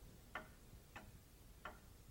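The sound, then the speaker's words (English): A clock ticks three times at an even, unhurried pace, each tick a faint, sharp click over a low steady hiss. “Later, the clock shows 2 minutes to 10.”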